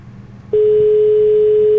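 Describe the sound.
Telephone ringback tone on a call that goes unanswered: a steady, single-pitched tone cuts in about a third of the way through over a low murmur and holds loud and unbroken to the end.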